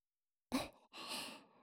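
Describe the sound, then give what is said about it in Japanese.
Strong puffs of breath blown out, quiet and close: a short, sharp puff is followed after a brief gap by a longer, steadier gust of airy hiss that slowly tapers off, with no talk. “最後にちょっと強めにふうふうしてあげますね。”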